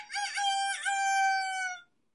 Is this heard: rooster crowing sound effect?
yes